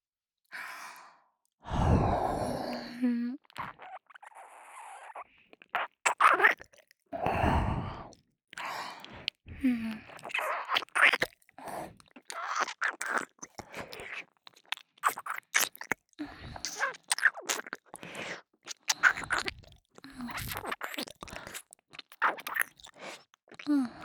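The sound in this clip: Mouth sounds of nibbling and eating at an ear: many wet clicks, smacks and soft chewing noises, scattered irregularly between breathy sighs, close and intimate.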